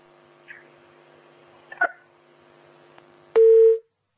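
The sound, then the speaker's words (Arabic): Telephone line tone after a call is cut off: faint clicks sit over a quiet, low steady hum, then one short, loud beep sounds near the end. “طيب قطع الاتصال.”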